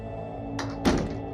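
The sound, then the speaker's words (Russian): An interrogation room door being closed: a soft knock-like tap followed a moment later by a heavier, dull thunk as it shuts. “Энди закрывает за собой дверь допросной.”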